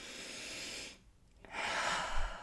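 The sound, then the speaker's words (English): A deep breath: two long, airy breath sounds with a short silent pause between them, steady and fairly soft, with no voice. “Perhaps let's just take another deep breath.”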